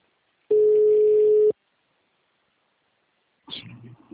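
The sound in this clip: After a dropped call, a telephone busy tone sounds as a single steady, clear pitched beep lasting about a second. Silence follows, then a voice begins talking.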